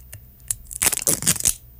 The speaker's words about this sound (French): Ça, c'est fermé qu'un plastique jusque sur le bouchon, mais il n'y a pas de petit pointillé qui me permet de déchirer ça. Mais c'est Coca-Cola, il pourrait se forcer un peu. Probablement que ça va déchirer jusqu'en bas, mais je vais faire de mon mieux.